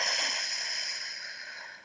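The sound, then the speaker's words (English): A slow, deep breath during a guided breathing exercise, in through the nose and out through the mouth. It is heard as one continuous airy hiss that gradually fades over about two seconds. “let's take a breath together. In through the nose, out through the mouth,”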